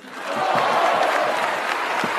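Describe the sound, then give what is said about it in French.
Deputies in parliament give a standing ovation, with dense, steady applause that swells in at the start and then holds loud and even. “Nicolas Hulot bien remonté, qui a eu droit à une standing ovation des députés de La République En Marche”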